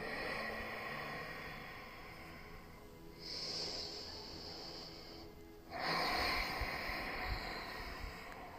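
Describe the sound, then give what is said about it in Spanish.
Slow breathing during a guided aromatherapy meditation with a eucalyptus blend: a soft airy inhale, a short held pause, then a longer, louder, steady exhale, with no talking. “Inhalo, sostengo y exhalo lento.”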